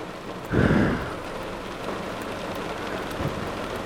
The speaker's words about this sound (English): That was lightning. Thunder.